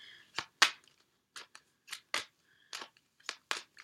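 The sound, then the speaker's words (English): A tarot card is pulled from the deck amid many short, crisp papery swishes and snaps at an irregular pace, all faint and without talk. “Let me pull one more card, please.”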